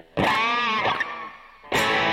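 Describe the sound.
Electric guitar with a light distortion effect: strummed chords ring out and sustain with a bright, slightly gritty tone, with a weaker chord in the middle and a second loud strum near the end.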